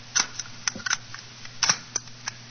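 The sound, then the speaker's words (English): Sharp mechanical clicks and knocks as a magician shuts the lid of a cabinet with a woman lying inside and locks it with bolts. Many short, crisp impacts come at uneven intervals over a faint low hum. “I close the lid. So, I uh, lock it with these bolts.”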